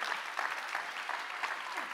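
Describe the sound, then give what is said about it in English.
Audience applause welcomes a church lead team onto a stage, with many hands clapping in a steady, dense wash at an even level throughout. “Would you put your hands together as I welcome the Purpose Church lead team up here on stage? Come on, let's honor them.”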